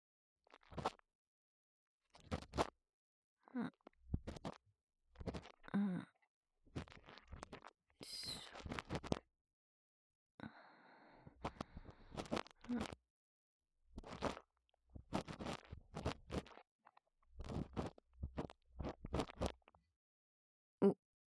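Earwax being scraped from an ear gives many soft, crunchy scratches and rustles in short bursts separated by brief pauses, quiet and close throughout.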